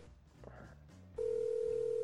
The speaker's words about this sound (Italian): Ecco, il telefono sta squillando, la linea è libera.